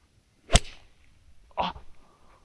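A golf club strikes a ball off real grass turf with a single sharp, loud crack that cuts off quickly, followed by a softer, briefer burst of sound.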